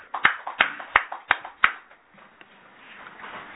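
Five sharp, evenly spaced hand claps mark a 47th birthday at a gathering. They ring out loud and alone, then give way to faint low background noise.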